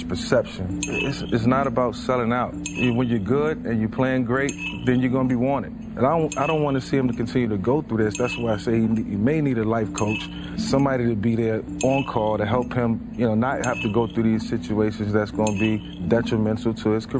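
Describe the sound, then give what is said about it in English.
A spoon stirring a teacup sets off repeated light, bright clinks of metal on china in the background, continuing throughout beneath steady conversation. “Yes, kids, that noise you heard in the background was someone stirring the teacup from Get Out,”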